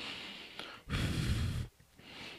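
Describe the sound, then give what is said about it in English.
A sharp, noisy breath rushes through the mouth in one loud burst lasting under a second, between quieter breathy hiss. “Why would you inhale? No, I was blowing it over there.”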